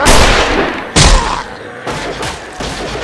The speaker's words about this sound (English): Aim for the head. Shoot them in the head.